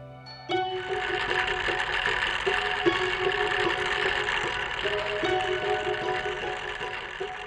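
Yarn being spun from washed wool in a small bedroom: a steady mechanical whirring drone with a faint rhythmic pulse running throughout, alone without voices.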